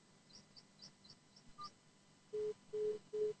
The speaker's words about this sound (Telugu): Okay, call cut అయినట్టుంది.